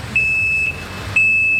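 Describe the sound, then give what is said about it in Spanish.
A truck reversing and parking outside gives high-pitched electronic warning beeps. Two long steady tones are separated by a short gap, over a low rumbling background. “¡Ah, un camión! Que está estacionándose ahí afuera.”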